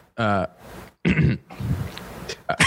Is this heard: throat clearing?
yes